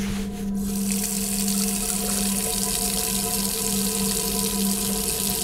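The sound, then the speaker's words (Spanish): Tap water runs steadily into a sink as someone washes up at the basin in a room. The rush is an even, continuous hiss over a low, constant hum, with no voices. “Comienza a quitarse la playera y decide lavarse en el lavabo.”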